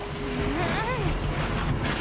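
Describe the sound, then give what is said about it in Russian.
An aluminium boat pushed across the shore into the water gives a continuous broad rushing wash with a scraping, hissing texture, and a voice sounds briefly over it. “Перевернув лодку, бросает в нее весла. Толкает лодку к воде”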